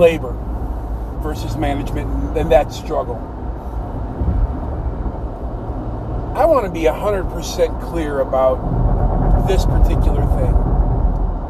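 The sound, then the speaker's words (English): Car engine and road noise while driving form a steady low rumble that continues under continuous speech throughout. “Pardon the noise, I'm driving, obviously.”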